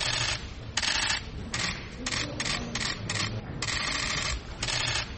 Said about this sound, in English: Ibyo mwumva byumvikana si urufaya rw'amasasu, ahubwo ni imirabyo ya za kamera z'abanyamakuru zicicikanira kuri gereza ya Nyarugenge ubwo bafotoraga Madame Victoire Ingabire